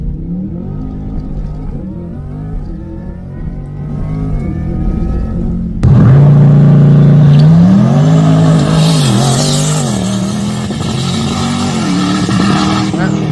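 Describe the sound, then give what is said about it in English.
Corvette E-Ray motor heard from inside the car: a steady engine drone gives way to a sudden louder surge, then revs that rise and fall in pitch before settling into a sustained, strong hum. “This is the E-Ray, I think. Yeah, that's the E-Ray. And I love how it sounds inside. You can hear that fucking, that motor making noise.”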